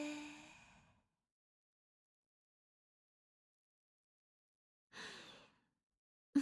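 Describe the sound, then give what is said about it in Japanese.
Slow, deep breathing: a soft, airy breath at the start and another about five seconds later, with silence between them. Both are quiet and unhurried, and no one speaks. “ゆっくり息を吸って。ゆっくり吐いて。”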